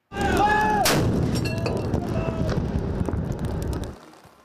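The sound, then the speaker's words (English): A single loud boom from 25-pounder howitzer guns firing a 21-gun presidential salute from a raft on Kallang Basin, standing out sharply over a steady wash of crowd noise and voices. “four 25-pounder howitzer guns on the Mobility 3rd Generation Raft will fire a 21-gun salute”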